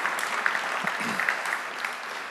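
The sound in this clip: A church audience applauds to welcome a guest speaker, with steady, even clapping that holds throughout.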